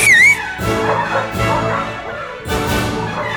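Hunting dogs bark and whimper as riders whistle them up for a chase on horseback. A few loud, yelping bursts come with brief gaps between them and fill the whole stretch.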